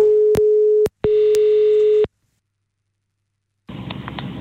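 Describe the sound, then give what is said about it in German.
Telephone tone while calling someone back: two steady, low-pitched electronic tones, each about a second long, separated by a brief gap, followed by silence and then a burst of noise on the line. “Dann machen wir Folgendes. Ich rufe dich gerade mal zurück.”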